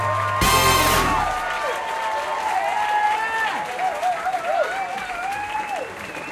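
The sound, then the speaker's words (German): Audience applause at a stand-up comedy show breaks out suddenly and loudly, then settles into steady clapping while a voice speaks over it. “Einen großen Applaus für Sebastian Hering.”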